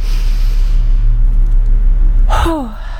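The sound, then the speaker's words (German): A breathing exercise done with an upright spine, deep breaths in and quick breaths out, heard over a steady low rumble. Near the end comes one short, forceful exhalation with a voiced tone that falls in pitch. “Und ich atme 7-mal tief ein und jedoch schnell ausatmen. Also so.”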